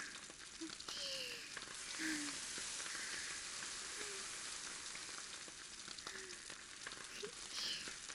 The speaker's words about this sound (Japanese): 綺麗に美味しそうに焼けとるけん。そしたら、ひっくり返して。すぐまたコンロを強火。